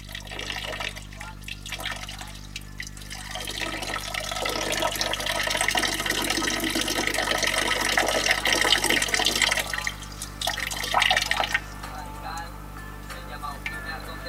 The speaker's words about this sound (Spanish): El Ebro sigue sonando.